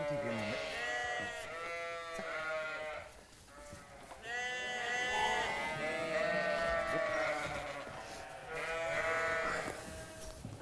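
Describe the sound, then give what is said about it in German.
Ram lambs and sheep bleating as the flock is split up on the way to summer pasture. Many wavering, overlapping bleats arrive in bursts of varied pitch, some loud and some fainter. “Jetzt geht's auf die Sommerweide. Jo. Die Bocklämmer müssen als erstes von der restlichen Herde getrennt werden.”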